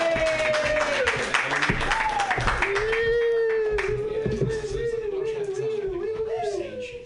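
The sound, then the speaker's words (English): Audience clapping and applause at a comedy show welcome the next comedian, a steady, dense patter of hands that runs throughout with a voice calling out over it. “Put your hands together for your next comedian, Jonah Pollock. Yay!”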